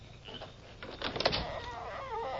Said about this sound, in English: And open the door.